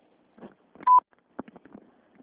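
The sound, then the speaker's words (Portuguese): A single short, steady beep from an automated telephone system sounds loudly to prompt the caller to speak, surrounded by faint line noise. “Por favor, diga seu nome após o bip.”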